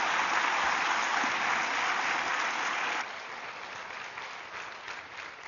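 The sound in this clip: A church audience applauds to welcome a visiting pastor from a sister church in Ukraine. The clapping is steady and dense, loud for about three seconds, then drops to a lower level and carries on to the end.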